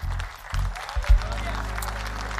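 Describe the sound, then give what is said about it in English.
Applause from a church audience: steady, dense clapping that continues throughout, with a voice speaking over it and a low steady hum underneath. “You hear people applauding here because brother has come to say yes to God today.”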